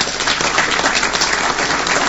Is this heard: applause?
yes